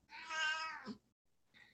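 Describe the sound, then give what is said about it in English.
A 20-year-old cat meows: one long, clear, fairly quiet meow, a short pause, then a fainter brief meow at the end. “if you hear a cat in the background, that's our Robin.”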